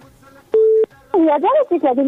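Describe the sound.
A telephone keypad tone sounds as a number is dialed: a single steady beep lasting about a third of a second, followed by a person speaking.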